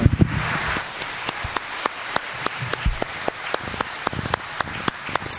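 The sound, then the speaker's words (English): A church audience at Morgantown Community Church applauds its band and singers with many quick, even claps that run on steadily without a pause. “Hey, let's hear it for our band and singers.”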